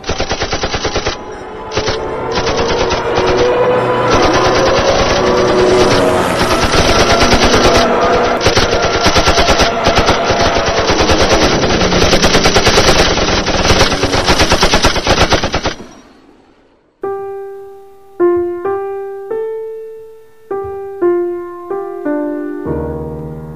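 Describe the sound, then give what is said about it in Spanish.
Machine-gun fire from B-26 bombers strafing a grid pattern: a loud, unbroken, rapid rattle lasts about sixteen seconds, then stops abruptly and gives way to a few ringing tonal strikes that fade. “con fuego limpio de ametralladoras en forma cuadriculada, para proceder luego al bombardeo.”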